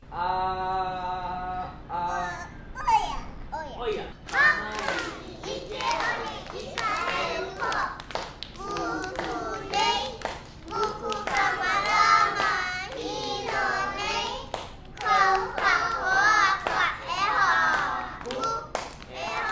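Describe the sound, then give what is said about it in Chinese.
A song with sung vocals over instrumental backing plays steadily and fairly loud from start to finish, with dense melodic lines and no talking over it. “节目的最后，我们就来听这一首歌曲”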